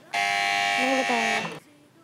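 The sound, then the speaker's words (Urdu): Quiz show buzzer pressed during a contest to complete religious poetry verses: one loud, sustained electric buzz lasting over a second, then a faint low hum. “دار المدینہ والوں نے buzzer بجا دی ہے”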